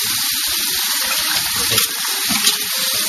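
Hot water running from a tap into a yellow container, warmed to about 24 degrees for photo developing baths: a steady, continuous gushing splash with no voices.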